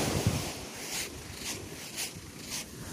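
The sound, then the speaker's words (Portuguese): Footsteps walking on beach sand, a steady run of soft crunchy steps over a constant wash of waves and wind noise. “E aí no finalzinho aparece eu andando na areia.”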